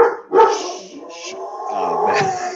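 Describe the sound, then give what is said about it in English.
A dog barks and yelps loudly in agitated, drawn-out bursts, upset by someone knocking at the door. The cries run almost continuously, with no talking. “You pissed off my dog. What are you going to do about it? Yeah, that's my dog.”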